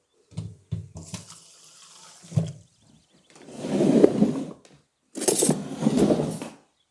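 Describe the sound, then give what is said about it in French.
Water poured into a cooking pot holding chopped ingredients: a few light clinks, then two bursts of splashing, running water. “Et je viens verser deux cuillères à soupe d'eau.”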